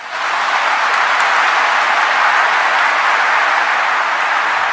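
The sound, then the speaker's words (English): Applause from mourners giving a standing ovation at a funeral: a steady, loud wash of many hands clapping at once that holds evenly from start to finish. “applause, a standing ovation even from mourners at a funeral.”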